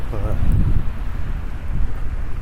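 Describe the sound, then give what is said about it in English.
Strong wind buffets a microphone outdoors on a very windy day, making a steady low rumble that lasts the whole time. A voice is heard briefly near the start. “And this is an extremely windy day.”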